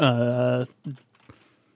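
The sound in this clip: A computer keyboard gives a few sparse, faint key clicks after a brief voiced sound at the start.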